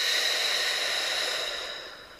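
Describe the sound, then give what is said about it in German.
A deep exhale through the mouth during a guided relaxation breathing exercise: a soft, breathy hiss that starts full and gradually fades away over about two seconds. “tief durch die Nase einatmen, durch den Mund ausatmen”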